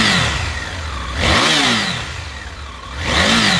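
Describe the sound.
The engine of a 2021 Triumph Tiger 900 adventure motorcycle revs while riding, swelling loudly twice as the pitch climbs and then settles back between the surges.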